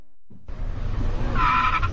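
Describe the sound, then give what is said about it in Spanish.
Car accelerating harshly and speeding: after a brief silence, a rough engine roar bursts in and stays loud, with a short high squealing tone like tires midway through. “Mira, papá, ese señor no sabe que con esos acelerones tan bruscos y manejando a exceso de velocidad, gasta mucha gasolina.”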